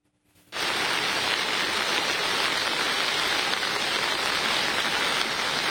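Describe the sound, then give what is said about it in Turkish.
A heavy downpour of rain during flooding in Sakarya, Turkey. A dense, steady roaring hiss begins abruptly after a brief quiet moment and continues unbroken and loud, with no voices. “Sağanak her geçen dakika etkisini artırdı.”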